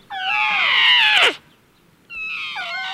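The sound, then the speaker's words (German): A young elephant trumpeting: a long, loud, high harmonic squeal that bends downward at its end, then a short silence and a second wavering call, with no voices. “Ach, hört ihr das an? Der Elefant, der flötet auch.”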